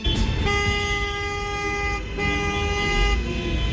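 Car horns honking on Italian streets: long, sustained blaring honks, one held blast after another with only a brief gap, over a dense rumble of traffic.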